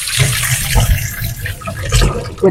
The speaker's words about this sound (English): I'm just going to wash my hands because I've been licking my fingers.